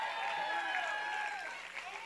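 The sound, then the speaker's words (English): A church audience applauds, a faint, even patter of many hands running beneath a preacher's voice throughout. “Now, don't just applaud for me.”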